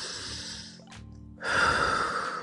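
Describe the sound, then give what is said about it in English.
A deep breath drawn in during a relaxation breathing exercise, followed by a short pause and then a louder, forceful breathy exhale that blows steadily out to the end. “Inhale and exhale. You get it out. Get it out. Inhale that negative and blow it right out.”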